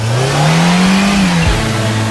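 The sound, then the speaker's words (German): A car engine revving hard, its loud low drone climbing slightly in pitch, then dropping sharply near the end before holding steady again. “Jetzt nochmals Gas geben.”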